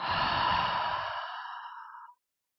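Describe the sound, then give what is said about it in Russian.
A deep breath ends in one long, noisy exhale through the mouth. It is a loud, breathy rush of air that fades away smoothly and is heard alone. “Делаем глубокий вдох, как можно глубже, и выдох шумом через рот.”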